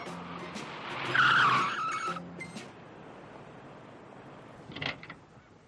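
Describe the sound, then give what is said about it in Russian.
Tires squeal and skid as a Zaporozhets car brakes to a stop on a city street, pulled over by a traffic officer. A loud screech peaks early, then fades, followed later by a brief sharper burst. “Поднимает жезл и останавливает машину со спешащим Валико.”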